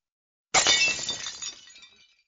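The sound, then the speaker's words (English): A glass object smashes with one sharp crash, followed by bright tinkling shards that fade away over about a second and a half. “You smashed it!”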